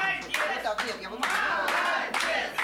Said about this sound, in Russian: Мы благодарим вас за участие в нашем фестивале и вручаем вам почетный диплом. Пожалуйста, под бурные аплодисменты зрителей.